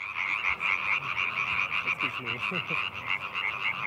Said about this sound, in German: Einer fängt an und 100 kommen dazu. Etwa 30 Laubfrösche performen heute.